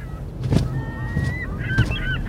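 A gull, cast as a mighty gull king, calls as it flies overhead with strong wingbeats: a few harsh, honking cries over a steady low rumble, with a couple of brief whooshing bursts.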